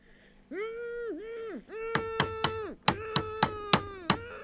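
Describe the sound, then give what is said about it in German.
Sharp wooden knocks in a radio drama scene about people trapped after an avalanche. A group of three raps is followed by a group of five, sounding over a sustained, wavering, moaning tone. “Ja, ja, da hat doch jemand geklopft.”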